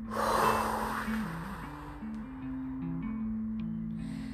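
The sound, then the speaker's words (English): A slow, deep breath drawn in and let out, a soft airy rush heard over gentle background music tones. “Why don't you take one with me? 1, 2, 3. Deep breath in and out.”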